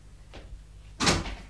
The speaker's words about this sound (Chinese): 做什么要劳烦你开门啊？